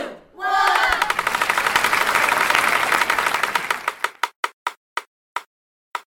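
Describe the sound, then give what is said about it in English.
A prize wheel spins with a rapid stream of ratcheting clicks. The clicks gradually slow and spread apart into a few separate ticks before the wheel stops. “Time to spin the wheel. All right, I'm spinning it.”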